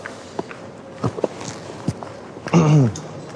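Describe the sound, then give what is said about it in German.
Footsteps climb stairs at a train station, where a traveler is hauling a heavy, battered rolling suitcase and carrying a ukulele. A few soft, irregular thumps stand out, with a louder, brief tonal burst near the end. “Endlich Treppen laufen. Ich sehe Treppen und ich habe Spaß.”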